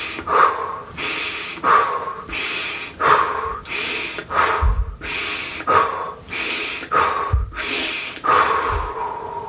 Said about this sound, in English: In through your nose, out through your mouth. Continue to breathe.